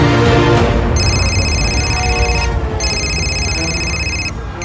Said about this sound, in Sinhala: ගැමුණුගේ phone එක රින් වෙනවා.